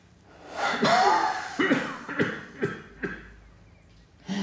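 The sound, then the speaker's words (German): Deep breaths drawn during a lung examination of a patient with suspected pneumonia: a few strong, rasping inhalations and exhalations with a gasping edge, the first long and loudest, then shorter pulses with quiet gaps. “Bitte immer tief einatmen.”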